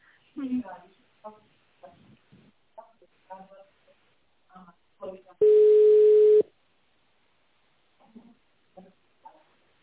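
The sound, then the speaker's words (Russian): A steady telephone line tone sounds for about a second while a call is put on hold and transferred to a specialist. Speech comes before and after it. “Оставайтесь на линии, сейчас я вас переведу.”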